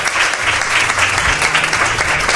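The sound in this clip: A radio studio audience applauds an arriving guest, loud, dense clapping that stays steady with no break.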